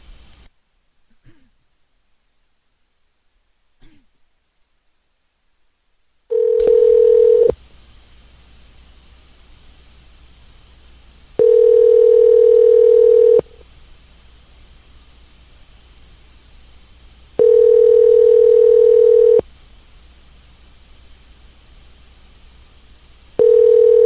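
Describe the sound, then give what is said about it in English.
Telephone tone while placing a call: a few faint clicks, then three steady, low, two-second beeps separated by longer silences, with a fourth beep just starting at the end. “I will call them again.”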